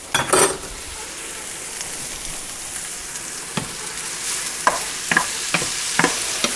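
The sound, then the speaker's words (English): A spoonful of jarred garlic sizzles steadily as it is sautéed and stirred in a pan, the frying hiss continuous under several sharp scrapes and clicks of the spoon, which grow more frequent toward the end. “And I'm stirring again from the outside to the center and all around to get this sauteed.”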